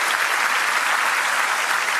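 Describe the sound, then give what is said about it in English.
An audience claps at a church service, with dense, continuous applause at a steady, fairly loud level throughout. “I know we've done a lot of clapping. One more time. Come on.”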